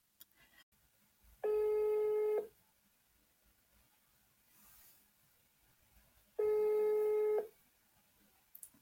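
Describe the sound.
Ringback tone on an outgoing phone call: two long, steady electronic ring bursts separated by several seconds of quiet line hiss, with no talking over them.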